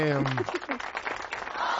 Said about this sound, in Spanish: ¡Un aplauso de primera vez para Meche!